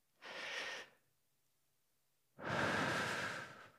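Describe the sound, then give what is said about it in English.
Deep breathing during a practice exercise: a short airy breath, then a quiet pause of more than a second, then a longer, louder and fuller breath. Both breaths are heard alone, with no talk. “Let's just try a practice here. Take a deep breath.”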